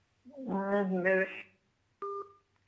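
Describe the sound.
A telephone line tone sounds as a call connects on a live radio phone-in line. A brief voice comes first, then a single short electronic beep with a steady pitch.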